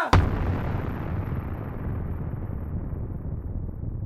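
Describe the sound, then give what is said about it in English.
An explosion from a Call of Duty video game: a sharp blast followed by a sustained, low, rumbling roar that carries on steadily without fading. “It's the same like on the old Call of Duty games where you say,”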